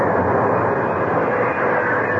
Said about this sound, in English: The train is stopping at the canyon now.